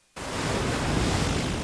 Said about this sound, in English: This is the sound of 100,000 tons and 5,000 sailors from across the country aboard the largest warship ever to take the seas.